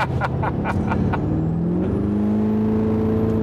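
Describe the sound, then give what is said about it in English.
A truck engine accelerating under throttle, its loud low rumble climbing in pitch while a thin high turbo whine spools up and holds above it. A few short sharp bursts come early on. “you slowly get into it, you can hear the turbo turn on. I mean, you can hear it when you're full throttle. I mean, it sounds high strung.”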